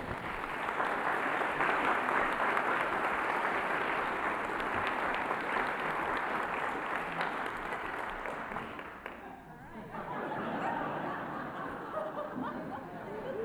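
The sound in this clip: Audience applause welcoming a speaker: sustained, dense clapping mixed with scattered chuckles, dipping briefly and then swelling again.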